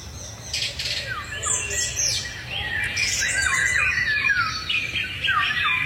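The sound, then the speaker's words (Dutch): A song thrush sings in a garden in the evening, pouring out varied bright whistled and chirping phrases, moderately loud over a soft, steady low background rumble. “Maar de zanglijster bij Liz Stolp in de tuin lijkt zich daar weinig van aan te trekken. Die zingt nog steeds iedere avond. Vanaf dezelfde tak.”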